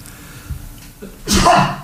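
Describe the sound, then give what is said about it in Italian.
A single loud sneeze bursting out sharply after a quiet stretch of faint low background noise, its hiss sustained briefly before fading. “un attimo che starnutirò, scusatemi.”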